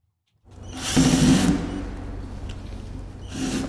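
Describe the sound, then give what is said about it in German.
Whirring power tool as a worker removes the last screws from a wooden crate in an empty museum hall. The motor whine rises into a louder burst, settles to a lower steady run, then swells briefly again near the end. “Ein Angestellter entfernt die letzten Schrauben von der Holzkiste.”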